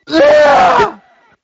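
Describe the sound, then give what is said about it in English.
A pained scream from a video game: a single strained, harmonic cry lasting just under a second, loud and alone, then trailing off into a faint, thin tail. “What was that? Yeah, what happened there? I have no idea what that was. I don't know. Okay. Someone screamed in pain.”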